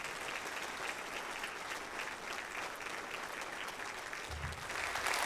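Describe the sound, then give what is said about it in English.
Steady, dense applause from a church audience welcoming two guests to the stage. The clapping holds at an even level for the whole stretch and swells slightly at the end. “can you put your hands together and let's welcome Kevin and Julia Garrett.”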